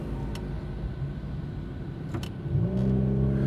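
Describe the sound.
A car drives off with a low, rumbling engine that swells as it accelerates. A rising engine tone comes through near the end over steady road noise, and no one speaks.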